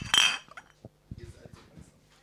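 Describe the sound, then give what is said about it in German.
Glasses of Spaten Münchner Hell beer clinking in a toast: one bright, sharp clink at the start, then faint low voices and a few soft knocks. “Wollen wir anstoßen offiziell? Haben wir das schon gemacht? Nee, gell? Wir haben es noch nicht gemacht.”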